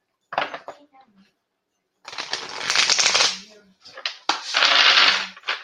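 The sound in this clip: Shuffling of a new deck of playing cards: a few dense, crackling bursts of riffling and slapping cards, the longer ones lasting over a second, separated by short pauses.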